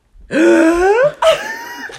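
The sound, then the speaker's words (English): A voice imitates a deep, shocked gasping breath drawn in on waking from deep sleep: a long, voiced, rasping intake that rises in pitch, then a shorter second burst. “the biggest breath in... ever, and like sit up shocked”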